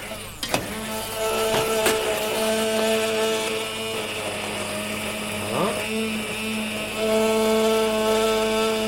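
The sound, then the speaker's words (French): A blender whirs as it purées a vegetable velouté soup, a loud, steady motor whine with strong harmonic tones and a brief shift in pitch midway before settling back. “Voilà, on va dire notre, euh, comment dire, notre euh, velouté est prêt. On va le, le mixer.”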